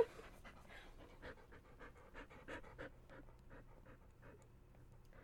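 A dog panting in quick, steady, rhythmic breaths, faint and alone, with many short huffs running through the whole stretch.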